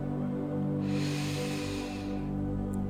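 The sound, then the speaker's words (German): A deep breath is drawn into the belly during a guided breathing exercise, a soft airy hiss rising and fading over a steady drone of background music. “Nimm noch einmal einen ganz tiefen Atemzug in die Bauchgegend.”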